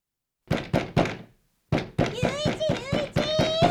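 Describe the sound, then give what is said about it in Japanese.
Knocking on a door: three solid thumps, a pause, then a quicker run of knocks with a voice calling out over them. “なんだよ、叩くか呼ぶかどっちかにしろ。うるさいだろ。”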